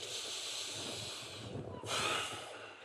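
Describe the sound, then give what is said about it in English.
A group takes a big breath together during a guided breathing exercise, a sustained breathy hiss that swells into a louder, brighter rush of air near the end. “Take a big breath.”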